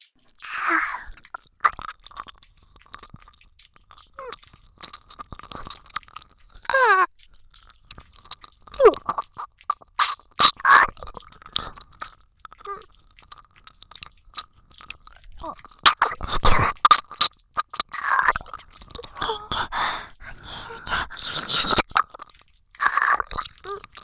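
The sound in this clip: Wet chewing and biting mouth sounds from close-up ear-eating role play. Many irregular smacks, squelches and crunchy bites come in bursts with short quiet gaps throughout.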